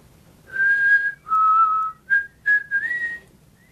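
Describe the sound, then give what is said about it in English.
A person whistles a short, clear tune of five notes: two long held tones, the second lower, then two brief notes and a final note that slides upward. “I'm your friend. I taught you how to whistle.”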